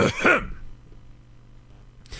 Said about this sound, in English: What I'm about to iterate is a very important thing. Thus, it requires an additional clearing of the throat.